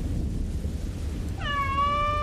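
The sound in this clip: A single drawn-out cat meow rises clearly out of a steady low background rumble, its pitch easing slightly downward as it holds.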